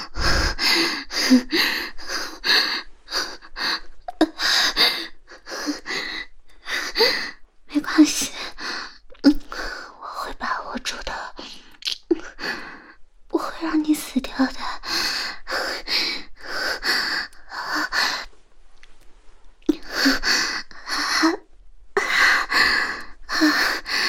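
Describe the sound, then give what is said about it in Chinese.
Repeated gasping as someone struggles to breathe, many sharp, ragged inhalations with snorting and breathy sighs in an irregular rhythm, separated by brief pauses. “是不是呼吸不上来啊？”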